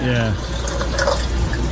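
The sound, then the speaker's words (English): Water pours from a pot into a tea pitcher in a steady, loud rushing stream that runs throughout, with a voice briefly heard at the start. “Then pour the water in the pot into the tea pitcher.”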